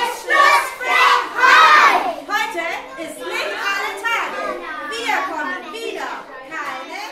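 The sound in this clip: Children playing football in a garden: excited young voices shout and call in loud overlapping bursts, louder at first and then continuing at a slightly lower level.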